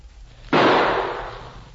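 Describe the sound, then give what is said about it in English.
A single gunshot, the last shot fired, bursts out sharply after a low background hum and then trails off in a long, loud, slowly decaying roar. “Now, here goes our last shot.”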